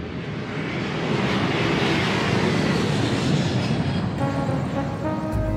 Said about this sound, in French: c'est vraiment tellement gentil à vous de nous emmener à Pyongyang à bord de votre jet privé.